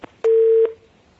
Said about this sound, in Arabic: قطع اتصال.